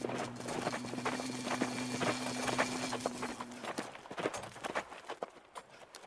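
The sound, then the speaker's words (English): Faint horse hoofbeats mark a rider arriving outside, heard as a busy, irregular clatter of many hoof strikes. A low hum sits beneath the strikes for the first half. “Somebody just rode up outside. Did you hear?”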